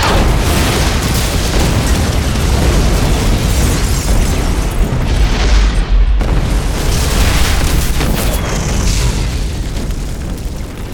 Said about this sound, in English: When the bomb went off, it killed them both instantly and blew out the whole top floor of Tower Chojiro.